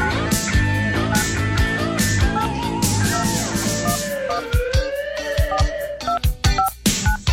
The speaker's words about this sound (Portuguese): Vou fazer uma ligação.